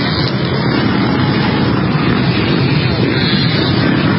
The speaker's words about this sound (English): A bunch of people got their dirt bikes, their ATVs, their four-wheelers, and just decided they're just going to go rampage around the memorial there.